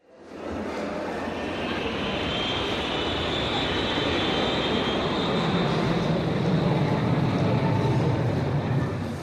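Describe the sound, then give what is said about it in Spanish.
Steady, loud airplane engine roar of a plane landing at an international airport, a continuous broad rushing drone that holds for the whole stretch with no voices. “Tan pronto como aterrizó en el aeropuerto internacional de Incheon, Hyun-taek tomó un taxi”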